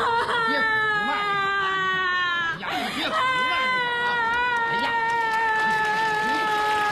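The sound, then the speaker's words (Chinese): Loud, continuous crying and sobbing with a strained, wailing vocal tone that holds and wavers throughout, broken by brief catches of breath. “哎呀，你别哭，慢点啊！”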